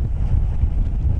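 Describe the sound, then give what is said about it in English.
Wind roars along the coast at Scituate, Massachusetts during a Northeast snowstorm with high waves, a steady, loud low rumble that lasts only about a second. “That's the sound of wind and high waves splashing in Scituate, Massachusetts.”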